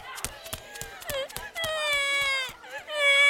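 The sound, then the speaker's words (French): A child cries in a crowded schoolyard, with high, drawn-out wailing notes broken by short sobbing catches and sharp knocks. The crying grows louder and more sustained toward the end. “Tiens, qu'est-ce que j'entends? On dirait qu'un enfant est en train de pleurer.”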